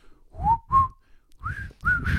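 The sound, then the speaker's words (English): Someone whistles a short tune in four clear phrases of mid-pitched notes, some gliding up slightly, with no talk over it. “The whistle.”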